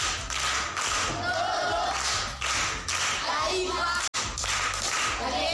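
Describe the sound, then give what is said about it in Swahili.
Audience clapping for a primary school pupil after answering a quiz question, a loud, dense run of many hands that briefly cuts out near the end and then resumes. “Makofi kwa mjomba.”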